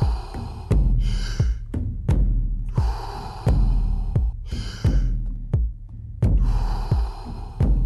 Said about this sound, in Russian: Вдыхаем, выдыхаем. Вдох, выдох.